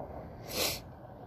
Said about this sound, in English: We're sniffling because we just went out to eat and Had some hot ass salsa.